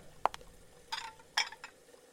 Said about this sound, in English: I'm cooking some chops and string beans. It'll be a lovely Christmas dinner.